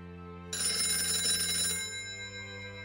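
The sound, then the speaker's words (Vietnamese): An alarm clock bell rings loudly, starting abruptly as a harsh, continuous metallic ringing that holds for over a second and then fades. A low steady hum runs underneath. “Tờ mờ sáng là chuông báo thức reo lên inh ỏi.”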